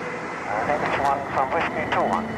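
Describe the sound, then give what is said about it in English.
Jet engine roar from an aircraft taking off from a wet runway, spray trailing behind it and lights flashing; a steady, broad rumbling roar that swells and pulses several times. “Spray trailing out behind it. Lights flashing. And it takes off.”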